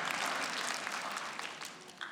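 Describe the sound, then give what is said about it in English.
Audience applause for a couple married 43 years: a dense, steady wash of clapping that holds at an even level throughout, with no pause. “Go ahead. You can applaud her, all right?”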